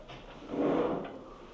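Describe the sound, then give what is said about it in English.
A door being closed during a talk on biblical sites: a soft, muffled sweep of sound lasting about half a second, fairly quiet and heard alone without speech. “Hey, you want to close the door?”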